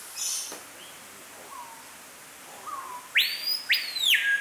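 A loud, strident bird call: a few harsh, sweeping whistles in quick succession near the end, after softer scattered chirps and faint calls.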